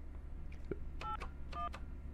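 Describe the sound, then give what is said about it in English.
Telephone keypad tones as a number is dialed on a live radio call: a few short, dual-pitched beeps, fairly faint, over a steady low hum and hiss. “let me turn that down for a second and dial her number.”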